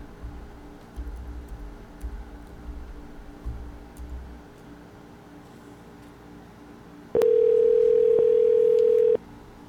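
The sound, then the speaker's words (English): A steady telephone tone sounds while a number is dialed. It holds one unbroken pitch for about two seconds near the end, loud and alone, after a stretch of faint low rumble. “We're dialing a number.”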